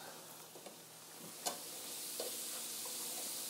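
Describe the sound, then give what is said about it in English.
Olive oil sizzling in a pan with blocks of regular tofu, a faint, steady hiss broken by a few soft pops and light stirring clicks. “I'm going to throw a little olive oil in there.”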